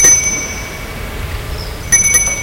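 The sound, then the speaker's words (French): A bell is rung at the gate of a private property. Its bright, high metallic ring comes in two short bursts separated by a quiet stretch. “sonne au portail.”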